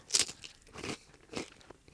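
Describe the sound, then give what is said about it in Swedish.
Seed crispbread spread with ground elder pesto crunches as it is bitten, giving a few faint, brittle crackling crunches spaced apart with quiet chewing between them. “Pesto på kirskål alltså? Kan det vara en hit? Kirskål på fröknäcke. Dra på en rejäl klump här. Ska vi se. Tar vi en tugga här.”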